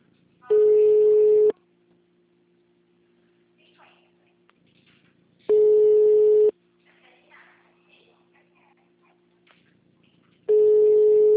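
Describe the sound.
A telephone line tone sounds while a call is being placed: three steady beeps of about one second each, separated by roughly four seconds of near-silence, with faint voices in the gaps.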